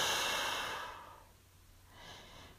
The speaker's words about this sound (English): breathe in and out. Breathe in and out.